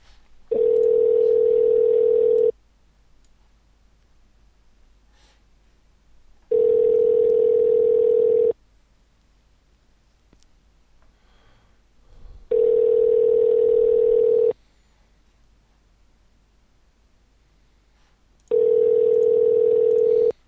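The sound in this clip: Ringback tone of an outgoing telephone call going unanswered: four steady, even buzzing tone bursts, each about two seconds long, separated by roughly four-second silences, with no voices.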